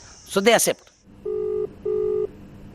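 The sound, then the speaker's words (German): Telephone dialing as a call is placed: a brief burst of speech, then two tones, each lasting about half a second, with a short gap between them. The tones are steady and clearly audible over a quiet line hiss. “Ein Anruf bei Namita Bandare.”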